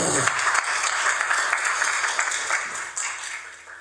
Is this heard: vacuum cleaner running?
no